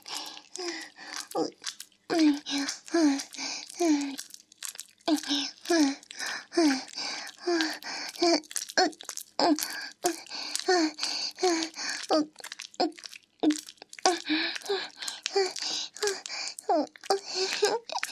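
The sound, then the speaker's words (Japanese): A woman moans in many short, breathy, rhythmic bursts, repeated steadily with brief gaps between them, fairly loud and close throughout. “私の喘ぎ声も耳元で聞かせてあげる。”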